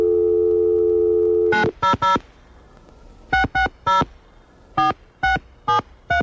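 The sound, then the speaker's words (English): Touch-tone beeps of a telephone number being dialed, after a steady dial tone that cuts off. Ten clear, evenly pitched beeps follow in quick groups of three, three and four, with no voices. “It probably would work if I dial the right number.”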